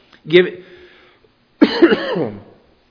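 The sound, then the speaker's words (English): A person coughs at a microphone during a sermon: two harsh, loud coughs. The second is longer and more voiced, trailing off like a throat clearing. “I wish we had a cough button up here where we could just, it's going to sound terrible.”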